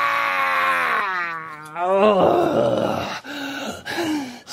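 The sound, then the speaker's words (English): A person moans in pain, unable to breathe and sure a couple of ribs are cracked. A long voiced groan with wavering, swooping pitch leads into rougher strained sounds, then a few shorter, weaker moans. “Unable to breathe and certain a couple of ribs had cracked, I moaned.”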